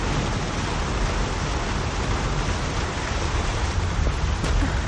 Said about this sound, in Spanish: En la catarata el agua cae a raudales.